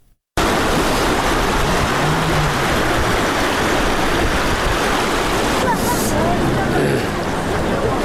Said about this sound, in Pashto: د اوبو د شور